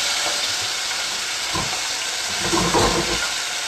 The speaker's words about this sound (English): And now I add my mixed vegetables. And reduce the heat.